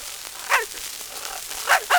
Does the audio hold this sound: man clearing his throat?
no